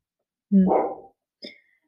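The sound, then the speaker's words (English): Dogs bark in the background: a longer, fuller bark followed shortly by a second, briefer and fainter one. “sorry, you might hear my dogs in the background”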